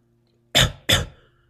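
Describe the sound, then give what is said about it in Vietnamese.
Two dry, harsh coughs from a man coughing up blood, each a short loud burst in quick succession, alone over a faint low hum. “Diệp Thiên còn chưa há mồm nói chuyện đã ho khan một tiếng, một ngụm máu tươi trào ra.”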